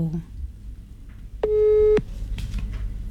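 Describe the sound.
A telephone call signal sounds as one steady, mid-pitched electronic tone lasting about half a second, rising out of quiet background talk that resumes after it.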